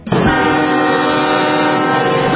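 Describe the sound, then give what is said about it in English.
A special train rolls through a small Texas town, its horn sounding one long, loud, steady chord that holds for more than two seconds above the rumble of the moving cars. “The special train continues carrying George H.W. Bush.”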